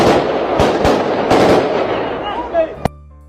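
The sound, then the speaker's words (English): Gunfire during fighting in Albania: several sharp shots crack out over a dense, rough roar of noise, ending with one last distinct report and a fading tail. “Here's some more fighting going on that should give you guys some horror.”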